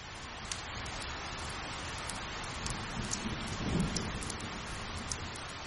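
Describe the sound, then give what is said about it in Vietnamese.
Rain falls steadily after dark in a dense, even hiss, with a brief low rumble swelling near the middle and no voices. “Sau đó trời tối, mưa vẫn chưa dừng.”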